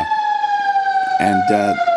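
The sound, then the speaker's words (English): A fire engine siren wails in a steady, high tone that drifts slightly lower. Near the end, two loud, low horn blasts join it. “The sirens are coming to get me. Sirens are coming to get me because it was that dangerous.”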